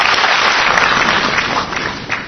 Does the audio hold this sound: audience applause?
yes